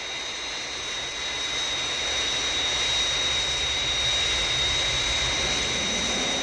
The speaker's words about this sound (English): Aircraft approaching glide path 5 miles to threshold.